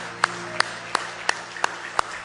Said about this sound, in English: Give him a hand clap of praise in the house of the Lord tonight.